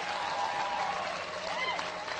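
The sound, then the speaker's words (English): Audience applause rises at a motivational speaking event: a steady, fairly soft wash of clapping lasting about two seconds, with no break in it. “Get old man a round of applause.”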